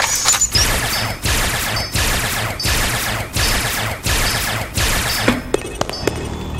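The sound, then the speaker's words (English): Gunfire from a cart below the player in a video game rattles out in repeated loud bursts of rapid shots with short gaps between them, ending in a few sharp isolated cracks. “There's a cart that's below me that's just shooting. Listen.”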